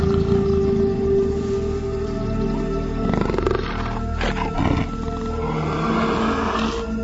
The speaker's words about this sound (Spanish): Cuando la hembra empezó a acercarse, la madre se puso a rugir.